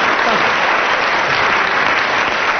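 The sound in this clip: Studio audience applause rolls in a loud, steady wash of clapping from a crowd at a panel comedy game, sustained evenly throughout with no voices breaking through.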